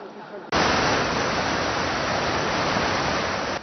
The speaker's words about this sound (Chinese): 可以充分感受到阵阵强风带来的威力